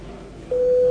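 A parliament voting bell sounds in the chamber as a steady electronic tone at a single pitch. It starts about halfway through and holds loud to the end over a low background hum.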